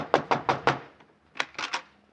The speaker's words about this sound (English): I'll knock at this door.